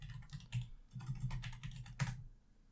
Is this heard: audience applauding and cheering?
no